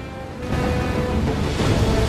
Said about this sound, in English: Dozens of penguins are braving the waves that are crashing into the rocks.